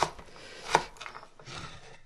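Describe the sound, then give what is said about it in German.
A knife coarsely chops carrots and onions with faint, sparse cutting strokes, one or two sharper knocks standing out among softer slicing sounds. “einfach grob, grob schneiden. Ne? Möhren genauso.”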